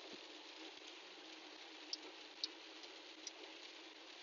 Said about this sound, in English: That's the sound of rain hitting a windshield, side windows. That's the sound of rain right there.